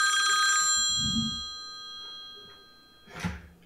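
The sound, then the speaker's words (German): A telephone rings with a bright electronic chime built from many clear harmonic tones. The ring is loud at the start and slowly decays, followed by a short, sharper burst of noise near the end; no one speaks. “Noch klingelt es nicht. Immer noch nicht. Das kann nur der Thomas sein.”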